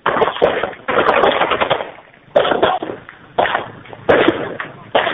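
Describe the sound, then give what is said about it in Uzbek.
Automatic gunfire from someone shooting at people comes over a phone line. Several loud, dense rattling bursts are split by short pauses and sound thin and band-limited. “Ya odamlarni otyapti mana shuna qilib.”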